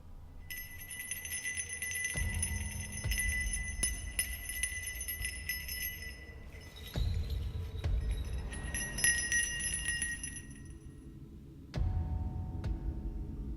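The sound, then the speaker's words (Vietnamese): Small hand bell shaken during a ritual, giving bright, sustained metallic ringing in two fairly faint bursts with a few dull low knocks in between. “Tay của lão thì cứ thế mà lắc cái chuông. Len ca len keng.”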